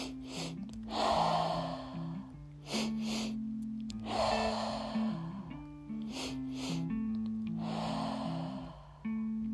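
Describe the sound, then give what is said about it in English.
Breathing in through the nose and out through the mouth during a guided breath-work session. Several soft, airy breaths rise and fall in a slow, regular rhythm over a quiet, sustained tonal backdrop, with no speech. “exhale completely with your mouth. Inhale through your nose, exhalation through your mouth.”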